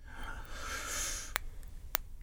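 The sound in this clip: A long, airy breath is drawn in steadily for about a second, then fades into quiet, broken by two brief sharp clicks.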